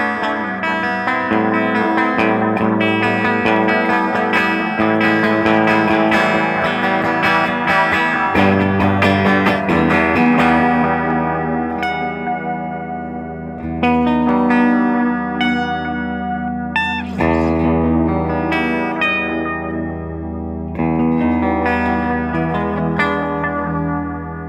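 A dark-toned electric guitar plays through a pedal with its modulation turned all the way up and its tone raised slightly, giving loud, sustained chords that wobble and waver throughout, with no talking.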